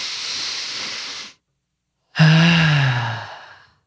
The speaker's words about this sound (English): Let's take a breath. Take a breath.